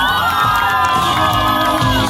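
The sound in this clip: An audience cheers and whoops loudly, a dense and continuous roar of many voices that stays at the same level throughout.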